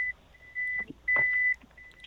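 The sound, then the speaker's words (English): High-pitched electronic warning beeps from a vehicle backing up, four steady tones of uneven length with short gaps between, clear over a faint low rumble. “Sorry for that beeping. I just had it back up there for a second.”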